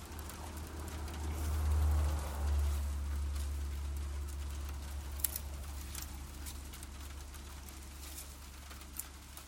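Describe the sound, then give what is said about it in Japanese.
Rain starts falling on a farm field where green onion seedlings are being planted: a faint, steady patter with scattered drips over a low rumble. “あれ、雨の予想だったのかな。 降ってきましたね。”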